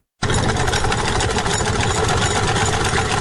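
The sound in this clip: A clothes sewing machine in Parun, in central Nuristan, runs as its wheel turns, starting abruptly after a brief silence and then giving a loud, steady whirring rattle with a fast, even pulse to the end.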